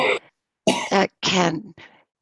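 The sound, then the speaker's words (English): A person sneezing and coughing, heard as a few short, harsh bursts of breathy noise separated by brief pauses, with no talk. “And God bless you, the person who's sneezing, sneeze coughing.”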